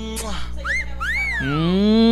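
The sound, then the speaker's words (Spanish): A person whistles a few sliding notes that swoop up and down in pitch. The whistling is fairly loud and sits over a steady, lower sustained tone. “Y con silbido y todo.”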